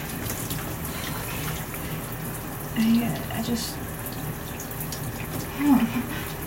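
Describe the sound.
Water running in a shower: a steady, continuous hiss of spray with a couple of brief louder bumps partway through.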